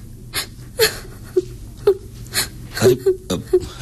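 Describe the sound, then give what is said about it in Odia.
A person cries in a dramatic scene, breaking into a string of whimpering sobs and sharp gasping breaths at an uneven rhythm. The sobs are moderately loud and stand alone without speech. “ଏଥିରେ କାନ୍ଦିବାର କଣ ଅଛି?”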